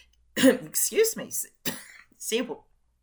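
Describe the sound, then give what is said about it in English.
Someone coughing in a short fit of several harsh, breathy bursts, separated by brief gaps, fairly faint and with no talking. “Sorry about that brief interruption there as I coughed.”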